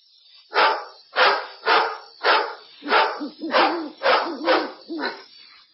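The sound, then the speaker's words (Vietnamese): Dogs barking at night in the Himalayas, about nine evenly spaced, moderately loud barks in a steady rhythm, with no talk over them. “Đêm Hy Mã Lạp Sơn vang lên tiếng chó sủa”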